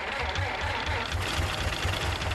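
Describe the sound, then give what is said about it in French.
A car engine idles with a steady low rumble that throbs in an even, repeating pulse, alone and without any voices. “C'est le moteur.”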